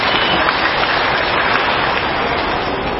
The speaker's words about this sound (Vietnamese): hãy cho tràng pháo tay để khen ngợi chính mình.